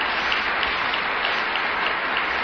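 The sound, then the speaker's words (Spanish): Church audience applauding during a sermon, a dense steady wash of many clapping hands that holds at an even loudness throughout, with no voices over it. “Démosle un aplauso al Señor. Démosle un aplauso al Señor.”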